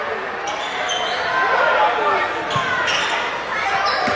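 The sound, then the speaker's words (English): A basketball is dribbled on a court during a game involving the Pirates. A few sharp bounces thump beneath steady crowd noise and voices talking. “dribbles up to front court for the Pirates”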